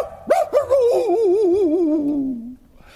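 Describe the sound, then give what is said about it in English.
A voice imitates a dog in one long, wavering, howl-like call that slides gradually down in pitch and then stops. “My old doggy went.”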